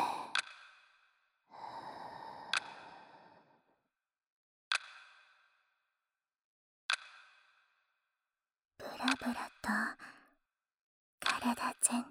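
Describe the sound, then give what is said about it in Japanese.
Slow, soft breathing in and out comes during a guided relaxation exercise. A couple of long, airy breaths are followed by a few faint clicks and quiet voice sounds near the end. “吸って、吐いて、”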